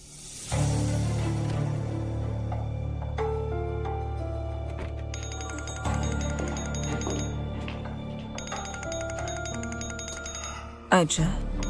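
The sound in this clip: A telephone rings with a bright, trilling electronic tone in repeated bursts over a sustained low musical drone, ending in a sharp click.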